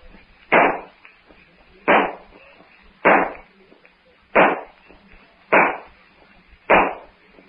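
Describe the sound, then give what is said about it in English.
Six sharp, loud gunshots crack out at an even pace in a Tarzan adventure drama set in the jungle with pirates, each with a hard attack and a short decaying tail before a quiet gap. “Will Clayton and Philander or Darno hear those shots? Will Tarzan in the jungle hear them?”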